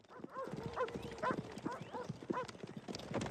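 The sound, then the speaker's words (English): Several horses clip-clop through an empty town high street, their hooves making quick, uneven clatters that overlap in a steady, fairly loud stream throughout. “The regulators ride through the empty Lincoln High Street with the lone dog chasing them.”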